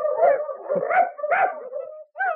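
A trained patrol dog whines in a run of high, strained whimpers and yips, with several drawn-out cries and a short break before the last one.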